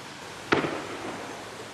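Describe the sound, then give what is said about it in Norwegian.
A single sharp gunshot crack during the shooting attack on a island youth camp, filmed from the mainland side. The crack is brief and fairly faint against a steady background hiss, with a short tail after it. “nå skyter de på Utøya.”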